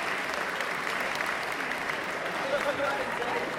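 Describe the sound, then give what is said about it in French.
Audience applause at the opening ceremony of a 2015 gaming convention, a faint, even wash of many hands clapping that holds steady throughout, with voices mixed into the crowd noise. “Un tonnerre d'applaudissements pour tous les stars du web.”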